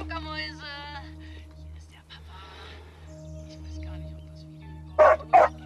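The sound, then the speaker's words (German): A dog barks twice in quick succession in a forest: two sharp, loud bursts near the end, after quieter sounds over a steady low hum. “Hund!”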